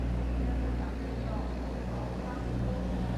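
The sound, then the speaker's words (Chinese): A generator running beside a broadcast van gives a steady, unbroken low hum, a deep droning rumble with layered tonal buzz that holds constant from start to end. “转播车跟发电机的声音，其实也就是发电机的声音。”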